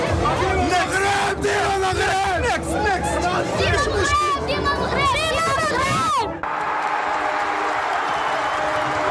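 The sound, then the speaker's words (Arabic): Moroccan fans cheer and chant at a World Cup group match against Haiti. Many loud voices rise and fall together in a dense, sustained roar that settles into a steadier crowd hum near the end. “أصوات تعبر عن تشجيع صادق من القلب، فكلما هاجم أسود الأطلس في ثالث مباراة ضد هايتي تهتف الجماهير صغارا”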